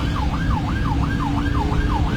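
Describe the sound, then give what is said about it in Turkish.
Ambulance siren wails loudly in a fast, repeating rise-and-fall yelp over steady traffic rumble as the vehicle tries to get a car to clear the road. “Siren ve korna işe yaramayınca ambulans sürücüsü bu kez anons yaparak yol istedi.”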